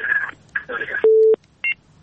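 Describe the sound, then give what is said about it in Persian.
Telephone line tones as a call comes in on the line: short buzzy tone bursts, then a steady mid-pitched beep lasting about a third of a second, followed by a brief higher dual tone. “فکر میکنم بازم تماس تلفنی داریم.”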